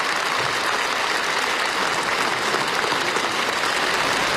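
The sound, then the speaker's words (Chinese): Warm, sustained applause from delegates standing together at a national congress, a dense, steady roar of clapping that stays loud and even throughout, with no voices heard. “全体代表起立，用热烈的掌声向习近平表达敬意”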